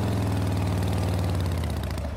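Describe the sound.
A motorcycle engine runs with a steady, loud, low rumble and a fast, even throb that lasts the whole time, with no voices.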